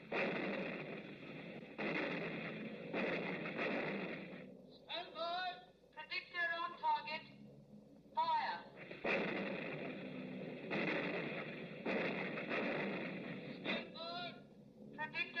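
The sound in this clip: Artillery guns firing at a wartime gun battery: heavy booming shots come in repeated blasts at the start and again near the end, with people talking in the gap between them.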